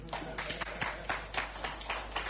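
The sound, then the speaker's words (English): Audience clapping at a banking-executive introduction: many quick, even claps repeat in a steady rhythm, fairly faint throughout. “When I say it and it's nice and it's sweet for you, you clap.”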